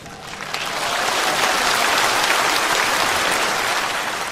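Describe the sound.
Applause from a Buddhist audience at a Dharma talk: many hands clapping in a dense, steady roar that swells in over the first second and holds evenly, easing only slightly at the end.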